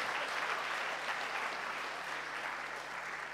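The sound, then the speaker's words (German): Audience applause for a man introduced on stage. Many hands clap in a dense, steady wash that stays fairly soft and even throughout, easing off only slightly near the end. “Und deswegen Applaus für Daniel, wirklich.”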